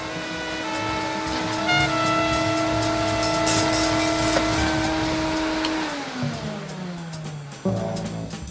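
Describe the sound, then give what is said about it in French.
A vacuum cleaner runs in a valley with a steady, whining motor drone full of tonal harmonics. Near the end it winds down in pitch, then briefly starts up again. “On passe l'aspirateur. On passe l'aspirateur dans le vallon.”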